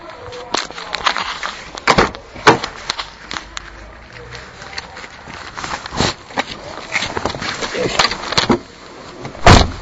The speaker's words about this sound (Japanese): 今車に乗り込みました。この車はキーレスエントリーですらない古い